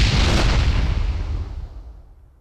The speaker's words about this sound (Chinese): 开枪啊！